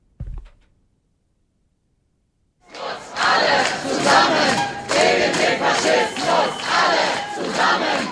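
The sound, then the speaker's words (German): A protest crowd shouts at an AfD campaign launch event for lead candidate Ulrich Siegmund in front of the Ulrichskirche. After a single dull thump and a few seconds of near silence, loud massed chanting and shouting surges up and carries on in rhythmic waves. “Wir hören ein paar Eindrücke davon, von diesem Auftakt und dem Protest dagegen.”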